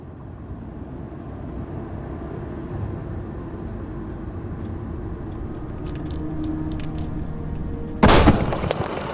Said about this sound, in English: Holy crap! What was that? It sounds like we blew a tire.